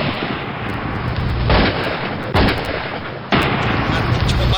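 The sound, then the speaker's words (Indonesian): Gunshots from a gun loaded with a golden bullet, heard as a few sudden, loud blasts that cut in abruptly over a harsh, continuous rumbling roar. “Beberapa hari kemudian, ia ditembak dengan peluru emas yang khusus disediakan melawan kesaktiannya.”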